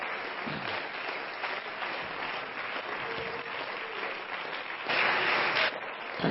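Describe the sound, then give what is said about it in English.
A church audience claps in praise during a morning service. The clapping is steady and fairly soft, then briefly swells louder toward the end before settling. “Let's give the Lord a hand clap of praise today.”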